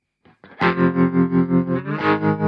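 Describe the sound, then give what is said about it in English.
Distorted electric guitar chord through a tremolo effect on a Kemper Profiler: a sustained, thick tone whose volume pulses in a steady, even rhythm, preceded by a couple of brief picked notes, with no voices. “Here we are. Here is the tremolo.”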